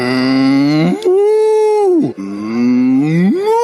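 A cow moos in three drawn-out, loud bellows, each a deep steady tone that bends in pitch at its start or end, separated by short pauses.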